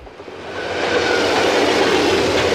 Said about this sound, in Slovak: Tak toto znie, keď stojíš pod viaduktom a nad hlavou ti prehrmí rýchlik. Pôsobivé.